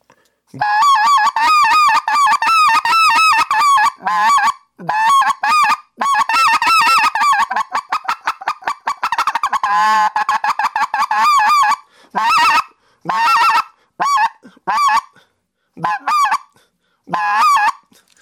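Goose spec call blown on a hand call to catch a big flying group's attention: a long, loud run of rapid honks and clucks in fast bursts with brief gaps, no talk.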